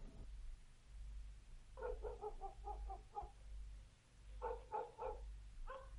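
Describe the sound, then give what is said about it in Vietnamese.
Dogs barking in a village at night near the Vietnam–Laos border as a vehicle's lights turn in: faint, rapid runs of short yelping barks in two separate bursts over a low, steady rumble. “Có tiếng chó sủa nhấm nhằng khi thấy ánh đèn xe rẽ vào trong làng.”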